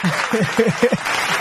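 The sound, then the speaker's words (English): An audience applauds the SEAT team for its clean-environment and climate awareness work, a brief, dense patter of clapping that runs under a speaking voice. “I think you guys, SEAT, really deserve a round of applause.”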